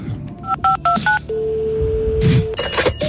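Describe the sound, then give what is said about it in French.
Telephone number dialed with DTMF tones: a quick run of crisp dual-pitch beeps, then one long, steady electronic tone held for over a second before broken noises follow. “Je vous propose de prendre un joker. Nous appelons un ami.”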